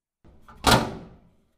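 A sauna door swings shut with one solid, dull thump that fades quickly, preceded by a soft shuffle as people settle into the small space.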